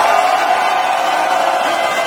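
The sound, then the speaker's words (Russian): Mission control staff cheering and applauding as Starship reaches orbit, a loud, dense, steady roar of many voices and clapping. “Но в момент, когда все-таки это получилось, центр управления просто взорвался аплодисментами. Предлагаю послушать.”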